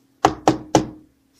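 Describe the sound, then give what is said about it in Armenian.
Three sharp, evenly spaced knocks on a door, each with a short decay, over a faint low hum. “Գայլը մոտենում է դրանը և թակում։”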